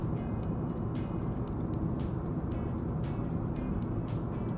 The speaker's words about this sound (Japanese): 車多いよ。なんか普通車線も追い越し車線も車が多い。